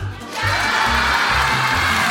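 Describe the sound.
A live audience at a stage show cheers and shouts back: the noise swells quickly after a quieter first moment, then stays loud and dense, with many overlapping voices.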